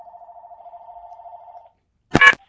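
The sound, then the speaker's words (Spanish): A telephone tone sounds as a call connects: a steady, single-pitched tone holds for about a second and a half, cuts off, and is followed after a short silence by a brief, louder burst of noise. “A ver si entra la llamada.”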